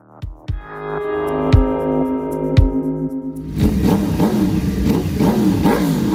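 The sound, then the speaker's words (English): Motorcycle engines rev as bikers roll through Daytona Beach during Biketoberfest. A steady, tonal engine drone with a few sharp clicks gives way partway through to a louder, rougher roar. “Daytona Beach will be a little louder and a lot busier this weekend, with thousands of bikers rolling through for Biketoberfest.”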